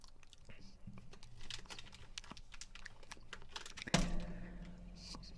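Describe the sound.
A snack being torn in half: faint crinkly handling and small clicks lead into one sharp tearing burst, followed by a short, rougher rustle, with people talking quietly throughout.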